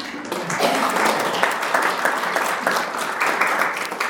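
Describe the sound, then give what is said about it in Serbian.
Audience applause at the opening of a portrait exhibition at a national library: after a brief quieter moment, a dense, even clatter of many hands swells in and holds steady to the end. “Pozdravimo je jednim aplauzom.”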